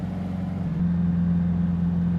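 A light airplane taxiing along a long runway gives a steady low engine drone with a constant humming tone. The sound stays even in pitch and loudness throughout.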